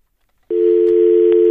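A telephone line tone for an incoming call switches on abruptly after a short silence and holds as one loud, steady, continuous pitch to the end, with no talking.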